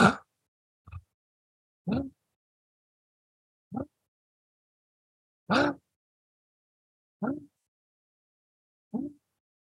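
Sharp breaths through the mouth, focused in the chest, as a breath-work demonstration. Seven brief, separate bursts come at uneven gaps with silence between them and no talk.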